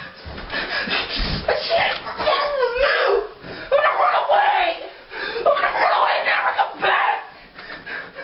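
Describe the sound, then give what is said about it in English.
A teenage boy screams and yells in a tantrum over being barred from his video games. His loud, strained shouting comes in long waves with brief pauses and continues throughout. “What you're hearing is a teenage boy throwing a tantrum because his mom said he couldn't play his video games anymore.”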